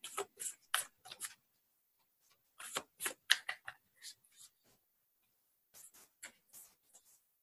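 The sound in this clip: Tarot cards being shuffled, heard as soft, faint clusters of papery riffling and rustling in short bursts separated by quiet pauses, with no talk.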